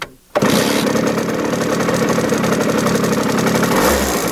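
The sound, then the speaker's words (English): A dirt bike motorbike engine cuts in abruptly and revs loudly and steadily for a few seconds, a dense buzzing drone with a brief low rumble near the end. “Yeah, it's a motorbike. Not a motorcycle. It's a motorbike. Wow. Yeah. They're like a dirt bike.”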